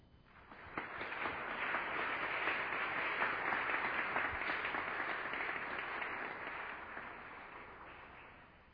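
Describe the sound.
An audience welcomes guest Scott Hahn before his talk on Scripture and Our Lady with dense, steady applause that swells, holds and then tapers off over several seconds.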